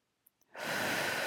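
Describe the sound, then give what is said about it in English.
A deep breath drawn in: after two faint clicks, a loud, steady airy rush swells quickly and holds to the end. “Let's just take a deep breath together. In”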